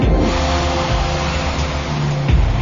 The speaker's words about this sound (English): As the Electra takes off for alert to pick up the last load of this contract